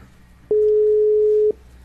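A single steady telephone ringback tone sounds while a call waits to be answered. One even, mid-pitched beep holds for about a second, starting and stopping abruptly over quiet background hiss.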